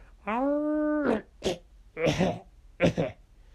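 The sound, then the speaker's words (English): A human voice imitates a dog, starting with one sustained, tonal howl and following with a few short, rough growl-like bursts, each separated by a brief pause. “I'm working on my howl and growl the way it is. My howls still come out as a bark. But, listen.”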